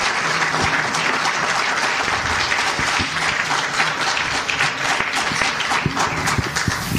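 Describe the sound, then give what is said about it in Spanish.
Loud, dense applause from a church audience during a Spanish-language sermon, a steady wash of many hands clapping together that holds at an even level for about seven seconds. “Denle un aplauso fuerte al Señor en esta tarde.”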